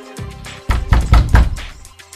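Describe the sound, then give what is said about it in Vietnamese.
Heavy banging on a wooden door: a quick cluster of loud, booming thumps follows a softer knock, then the sound fades. “Cửa gỗ bị đập sầm sầm”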